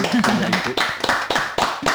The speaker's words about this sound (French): Tout le studio Welcome. Numéro 1 de Radio Cause Commune applaudit.